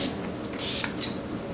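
Water mist is sprayed onto a face from a spray bottle in two short hisses: a longer burst, then a briefer one, over a faint steady background.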